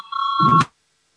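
An electronic voting bell signal sounds in a parliament chamber, a single steady mid-pitched tone with bright overtones lasting just over half a second. It ends with a brief burst of low, rough noise and then cuts to silence.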